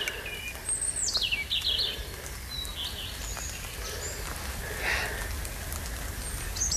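Birdsong from a common redstart and a European robin after heavy rain: thin, high chirps and trills over a steady hiss of dripping raindrops, with no talk.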